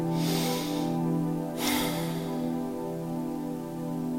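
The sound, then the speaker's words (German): A slow, deep human breath during a guided relaxation: a long, soft inhale followed by a stronger, sharper rush of air, set over a steady low drone with no talk. “Nimm einen tiefen Atemzug.”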